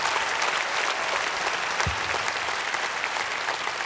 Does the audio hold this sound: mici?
no